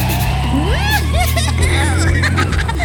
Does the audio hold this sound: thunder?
no

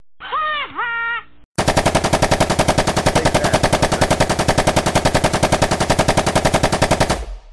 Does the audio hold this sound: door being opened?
no

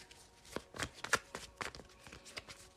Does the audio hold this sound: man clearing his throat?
no

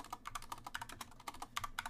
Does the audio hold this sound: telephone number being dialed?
no

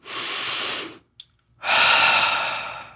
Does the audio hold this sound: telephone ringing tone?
no

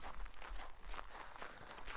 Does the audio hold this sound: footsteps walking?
yes

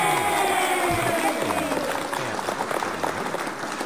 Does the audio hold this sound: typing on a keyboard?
no

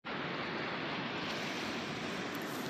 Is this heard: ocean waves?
yes

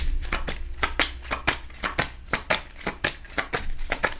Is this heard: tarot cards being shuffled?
yes

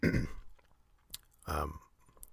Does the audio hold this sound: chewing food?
yes

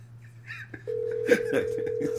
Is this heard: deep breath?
no

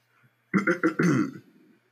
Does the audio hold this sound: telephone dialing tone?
no

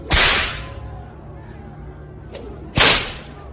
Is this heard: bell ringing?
no

